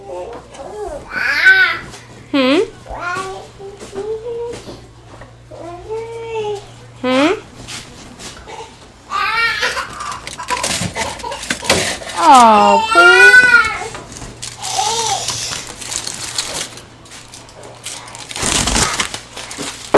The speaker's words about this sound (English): What's the matter with the baby?